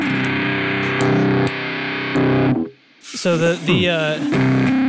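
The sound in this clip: Heavily distorted, buzzing tones from an effects pedal with a sweep knob and its switch in the middle position. Loud sustained notes repeat a few times, then a short gap, then a burst of swept, wavering notes.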